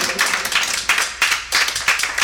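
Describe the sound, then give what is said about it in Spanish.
Rhythmic clapping from an audience during a Sunday church service, loud, steady beats repeating at an even tempo, about seven bursts, with no talk over them. “Dele palmas, hermano.”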